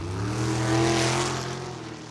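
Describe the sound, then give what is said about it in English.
Race car engine revving: a steady, harmonic mechanical drone that swells in loudness around the middle and eases off toward the end. “Fast cars, loud nights, family fun, and a full summer of racing.”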